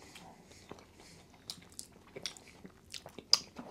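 Chewing on a sweet peanut butter and sugar snack: many soft, irregular crunchy bites and moist squishy chews, faint overall, with a sharper, louder crunch near the end.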